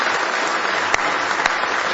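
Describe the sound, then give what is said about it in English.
A church audience claps hands in praise during a service, a dense, even patter of applause with a few sharp, louder claps that punctuate it. “Give the Lord a big hand clap of praise.”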